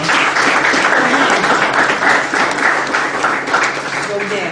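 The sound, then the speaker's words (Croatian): Audience applause at a live evening event, a dense, steady wash of many hands clapping that holds at an even, fairly loud level through the whole stretch without a break. “Možda jedan aplauz za Lani.”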